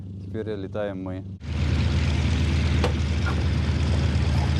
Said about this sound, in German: Dieses Flugzeug verbrachte sein halbes Leben in Amerika, wo es von lokalen Sportlern geflogen wurde. Jetzt kam es nach Hause und wir fliegen es.